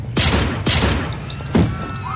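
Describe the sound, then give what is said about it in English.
Three loud gunshots go off in uneven succession, each one a sharp, explosive crack that fades into a short decaying tail. “Jesus, you just shot her in cold blood.”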